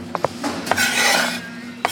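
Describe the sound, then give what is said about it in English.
Cooked chicken being scooped into serving dishes at a stainless steel table in a large kitchen, with a continuous scraping, stirring rasp broken by a few sharp clinks of utensils against metal pans. “is scooping cooked chicken into serving dishes”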